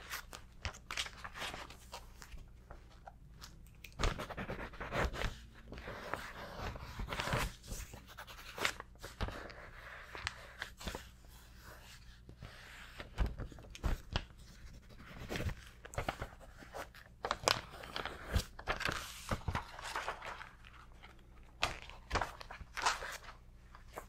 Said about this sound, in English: I'm gonna write a little bit more in my notebook.